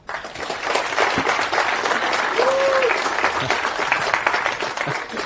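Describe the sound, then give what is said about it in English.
Audience applause welcoming a speaker at an open-source software conference talk on Samba: a dense, steady burst of many hands clapping that holds at an even loudness for about five seconds. “So give me a hand in welcoming him.”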